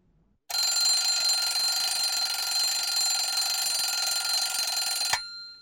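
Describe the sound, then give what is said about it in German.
An alarm clock rings in the morning, a shrill, continuous high-pitched electronic ringing that starts abruptly after a moment of near silence, holds steady and loud for nearly five seconds, then cuts off sharply. “Um 7 klingelt der Wecker.”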